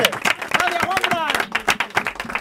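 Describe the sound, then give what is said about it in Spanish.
An audience applauds during a panettone tasting. Quick, sharp clapping comes in bursts while people talk and call out over it. “¡Un aplauso, Juanfran!”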